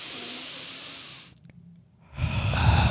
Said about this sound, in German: Da musst du halt ganz tief durch die Nase einatmen, ungefähr so.